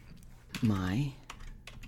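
A few taps on a computer keyboard while a font is being typed into a text box, with a brief vocal sound in the middle.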